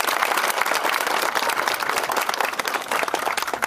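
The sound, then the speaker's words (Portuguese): Applause from a crowd at the opening of a new community health clinic, with dense, sustained clapping that stays loud from start to finish. “eu peço mais uma vez uma salva de palmas à Dona Cândida.”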